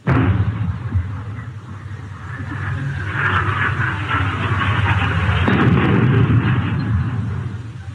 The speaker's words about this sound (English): Open fire on that thing out there, whatever it is. We'll soon see if it's a ghost or not.